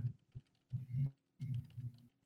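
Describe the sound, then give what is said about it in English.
Quiet typing on a computer keyboard while entering NBA game predictions, a few short clusters of soft, muffled keystrokes separated by brief pauses, heard alone. “I forgot how to type. This is not good.”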